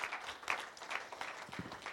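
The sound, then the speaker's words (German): An audience applauds to welcome a guest up to the stage, the clapping faint and scattered, rising and falling in uneven bursts. “Und Habakuk, wir begrüßen dich mit einem ganz herzlichen Applaus, komm gerne hier hoch und nimm Platz.”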